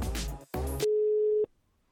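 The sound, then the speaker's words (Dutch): A single steady telephone tone sounds while a call is being placed. After a short burst of speech, one unbroken beep lasts a little over half a second, then stops. “Even Alexander bellen.”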